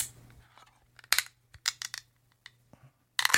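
A crowler can of takeaway beer from a bar being worked open gives off a scattered series of sharp metallic clicks and scrapes with quiet gaps between them, ending in a brief louder burst.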